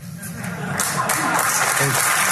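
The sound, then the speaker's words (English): Audience applause from a crowd at a political talk, a dense continuous clatter of clapping that builds slightly and holds steady, with some voices mixed in underneath. “Again, they applaud for that. Liberals applauding for that.”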